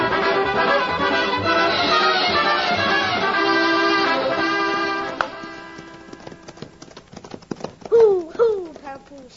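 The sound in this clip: Horses' hooves clip-clop as riders set off, a run of quick hollow taps emerging as tuneful music fades out, then a voice calls out over the last few seconds.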